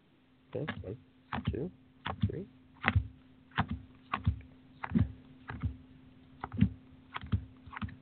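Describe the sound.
Playing cards being laid out one at a time: a dozen or so soft, papery slaps and clicks at a steady, even pace, with a low constant hum underneath.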